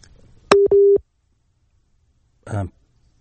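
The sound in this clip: A telephone busy tone after a dropped call sounds as two short, steady mid-pitched beeps in quick succession, then a brief burst of a voice after a pause.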